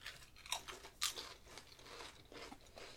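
Crisps from a freshly opened packet are crunched and chewed, giving several faint, irregular crunches with softer chewing between them.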